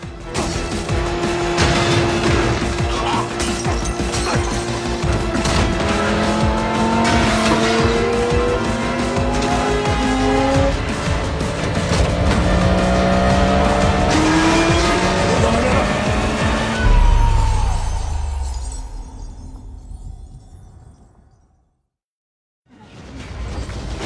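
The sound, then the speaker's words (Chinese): Sports car engine roaring with tire screeches during the skyscraper-to-skyscraper jump scene in Furious 7. The loud, sustained engine noise shifts in pitch for about seventeen seconds, then dies away into a brief silence before the sound returns. “这场戏动静结合，在夕阳的照耀下，高耸入云的摩天大楼和楼间凌空飞跃的跑车形成鲜明对比。”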